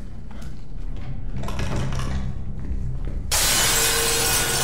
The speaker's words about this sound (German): Ein weiterer Hunter sprang durch ein Deckenfenster in den Raum.